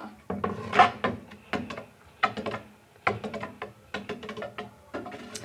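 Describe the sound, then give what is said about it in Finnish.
A ratcheting spinner wheel is spun in a tabletop game that lands on a year, giving bursts of rapid wooden clicking that slow, stop and start again over several spins. “tässä on vähän tämmöinen niin kuin peli, eli tässä voi pyörittää tämmöistä hyrrää ja siitä sitten saa jonkun vuosiluvun.”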